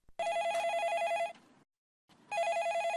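A telephone rings with an incoming caller's line: a bright, trilling electronic bell sounds in one long burst, falls silent, then starts a second ring that is cut off.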